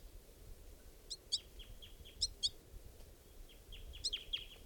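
High, thin begging-style calls from an adult female bird perched above a caged bird, like juvenile begging calls. They come as three pairs of sharp chirps, with softer down-slurred notes between them, faint over a low background rumble.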